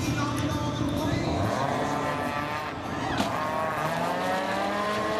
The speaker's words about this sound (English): This is a smart car racing a Mustang.